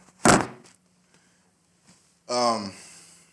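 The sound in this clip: A phone is slammed down with a single heavy, loud thunk that quickly dies away, followed after a pause by a brief voiced sound.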